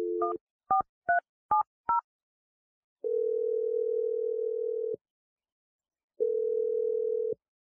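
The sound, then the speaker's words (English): Telephone dialing tones: five short dual-tone keypad beeps in quick succession, then two long, steady ringing tones separated by a short silence, with no voices. “I'm going to dial the number right now. Here we go.”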